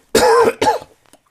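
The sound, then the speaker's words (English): Throat clearing to clear phlegm: two harsh, rasping bursts, the first longer and the second shorter, followed by a few faint clicks and then quiet. “God, I got this phlegm in my throat.”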